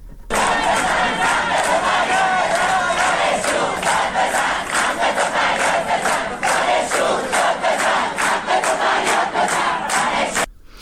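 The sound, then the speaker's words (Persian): A crowd of students at an early-morning university protest rally chants slogans. Many voices sound together, loud and continuous, with a steady rhythmic pulse that runs through the whole stretch. “دانشگاه خراسان، تجمع اعتراضی در اول صبح داشتن. صدای اونها رو بشنویم.”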